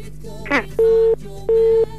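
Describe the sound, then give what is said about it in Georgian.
Busy tone after a telephone call disconnects on a song-request phone line: two steady mid-pitched beeps of equal length separated by a short gap, preceded by a brief noisy burst. “გაითიშა ზარი.”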